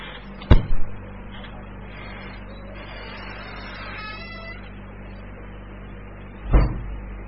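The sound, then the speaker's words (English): A door on squeaky, unoiled hinges: a solid thump, then a faint, wavering high creak, and a second thump near the end. “Someone should put some oil on those hinges.”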